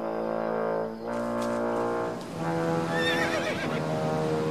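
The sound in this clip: A horse neighs in a few long, loud, shrill whinnies that waver and quaver in pitch, with brief breaks between them and no voices.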